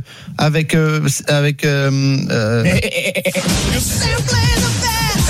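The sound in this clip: Goat bleating in a sound effect played during Tour de France cycling coverage: a few loud, wavering, nasal bleats in quick succession, followed by noisier sound with talk.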